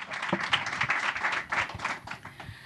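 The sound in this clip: An audience applauds a Broadway dancer and choreographer with a steady patter of many hands clapping. The sound is moderately quiet and continuous, and no clear voices are heard.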